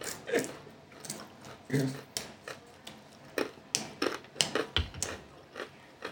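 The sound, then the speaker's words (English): Someone bites into a pretzel and chews it, making many crisp, irregular crunching clicks that come in short bursts, fairly faint and uneven in rhythm. “Let's take a bite of pretzel.”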